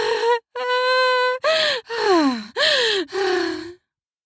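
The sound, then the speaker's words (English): Groans from a man and a woman during sex: six drawn-out voiced moans and gasps with short gaps between them, several sliding downward in pitch, and no words. “The push in causes a groan from both.”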